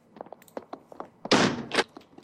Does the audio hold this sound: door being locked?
yes